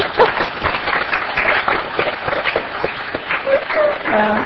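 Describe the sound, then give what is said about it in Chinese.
Audience applause welcoming children at a gathering: a steady patter of many hands clapping for several seconds, with a voice briefly heard toward the end. “我们不应该拍手欢迎你们，是吧”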